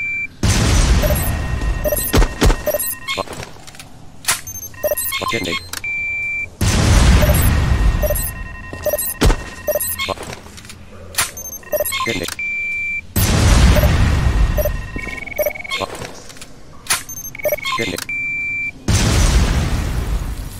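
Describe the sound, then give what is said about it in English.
Bombs detonate in a video game with several loud, booming explosions spaced several seconds apart. Sharp electronic beeps and clicks sound between the blasts. “Detonate, detonates all set. Detonate. Bomb detonate.”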